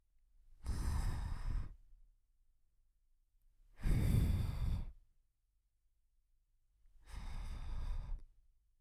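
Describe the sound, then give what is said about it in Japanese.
Gentle blowing into the ear, heard as three soft, breathy puffs of air, each lasting about a second with short pauses between, alone and without talk. “仕上げはお耳にふうふうです。”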